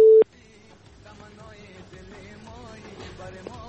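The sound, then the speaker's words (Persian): A busy tone follows a dropped phone call: one short, loud, steady beep at the very start, then only a faint, murmuring background for the rest. “بله فکر میکنم بازم تماس قد شد.”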